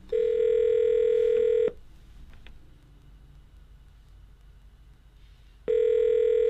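Telephone tones as a call is dialed: a long, steady tone, a pause with low background noise, then the same steady tone returning loudly.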